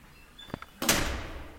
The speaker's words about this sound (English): Yeah, so this sound you're hearing is just doors closing in the corridor. Here in university, every corridor has 2 doors that isolate the heat inside, so that way we can save a lot of energy.